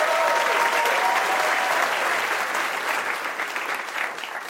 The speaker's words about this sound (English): And let's please show our appreciation one more time for all our contestants.